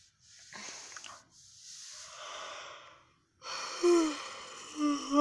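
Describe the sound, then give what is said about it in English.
A person yawns, with fairly faint, breathy drawn-out inhalations followed by a louder voiced exhale whose tone wavers. “sorry, I'm yawning again.”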